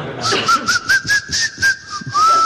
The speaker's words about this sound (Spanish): Sí, y también sé silbar con los dientes.